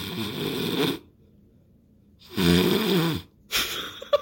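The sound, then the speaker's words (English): A person imitates snoring: three drawn-out snores, each a rough, rattling breath separated by short silences, the last one ending in a brief snort. “I don't know why I had to go through the authenticity of a snoring sound, but I went through it, and I committed it, and I hope you appreciate it.”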